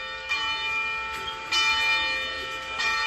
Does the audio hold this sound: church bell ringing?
yes

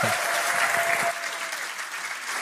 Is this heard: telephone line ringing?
no

